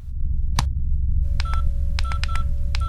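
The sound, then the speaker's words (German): Touch-tone dialing beeps from an intercom call placed aboard an airliner: one short electronic tone, then a quick run of several more, over a steady low rumble with a faint continuous tone beneath. “Gleichzeitig ruft er per Intercom bei Helga an.”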